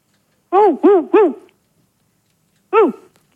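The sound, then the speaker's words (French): A dog barks over a telephone line: three quick, hoarse, voiced woofs in a row, then a pause and a single fourth bark, each loud and clear against near silence. “Je crois qu'ils ont un chien, dis-moi. Ouh. Ils ont un chien. Ouh. Ouais, mais enfin, c'est bizarre. Ouh. C'est le chien qui a décroché le téléphone.”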